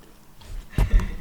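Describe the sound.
Biting into a crunchy Dubai-style chocolate bar with pistachio filling: a brief crisp snap followed closely by a second crunch, faint at first and then sudden.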